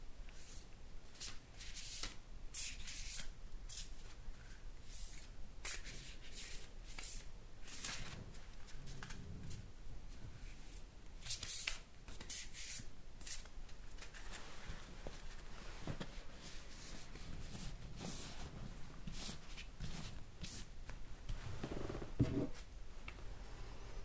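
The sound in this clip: A deck of cards is shuffled by hand, producing many soft, faint riffling and rustling bursts in an irregular rhythm over a long stretch.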